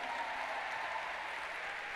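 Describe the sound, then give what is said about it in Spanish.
A church audience applauds for the Lord after a sermon, a continuous soft wash of many hands clapping that stays even and fairly faint throughout, with no one speaking over it. “Y dale un aplauso al Señor.”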